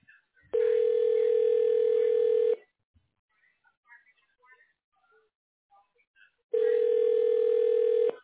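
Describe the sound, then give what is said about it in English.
Two long ringback tones on a telephone line while a call is being transferred, each a steady buzzing tone about two seconds long, separated by a pause of roughly four seconds. “Please hold while your call is being transferred to Guido Forlotti.”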